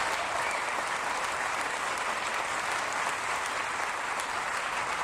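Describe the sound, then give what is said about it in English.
An audience applauds at a music festival concert: dense, steady clapping from a crowd, even in loudness throughout and heard on its own without any voices. “Please give him a big round of applause.”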